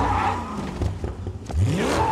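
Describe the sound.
A car engine revs loudly and steadily as the car gives chase after someone fleeing on a bicycle, its pitch climbing toward the end.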